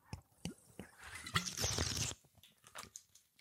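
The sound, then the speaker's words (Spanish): A person drinks during a pause: quiet clicks, a short rushing slurp, then a few small swallowing sounds, alone without talk. “Ah, pausa dramática para beber.”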